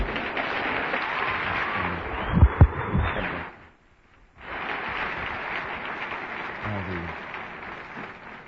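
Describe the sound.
Audience applause welcoming a guest speaker in a church gathering, a dense steady clatter of clapping that stops briefly in the middle and then resumes at a similar level.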